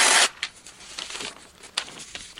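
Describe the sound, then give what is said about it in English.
Paper pieces being ripped up: a loud tearing burst at the start, followed by a few shorter rips and crinkles. “I'm not even giving you the pieces. I'm going to rip all these up.”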